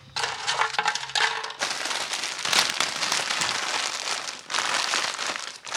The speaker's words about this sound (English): I'm opening packets of chips and tipping them into your lunchbox, and I'm unwrapping muesli bars and putting them in your lunchbox.